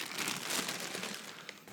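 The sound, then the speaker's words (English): Packing tape rips off a package holding jeans ordered online during an unboxing. It makes a continuous crackling, crinkling tear lasting a couple of seconds, moderately loud, with no talk over it. “Now he's ripping off some tape.”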